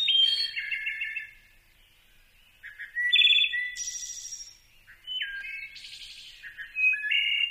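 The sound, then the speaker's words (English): Wood thrush song: clear, flute-like whistled phrases with trilling ends, sung in several bursts separated by short silent pauses. “listening to the wood thrush”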